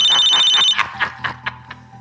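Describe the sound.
An incoming call sets a telephone ringing: loud, rapid electronic ring pulses repeat in quick bursts, then continue as a slower series of shorter chirps. The ringing plays alone, without talk.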